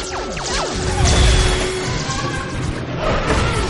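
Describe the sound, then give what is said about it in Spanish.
Projectiles smash office furniture during a science-fiction action scene: quick descending zaps and whooshes at the start, then a loud, dense crash of shattering and thudding impacts that keeps rumbling. “Los proyectiles destrozan el mobiliario de una oficina.”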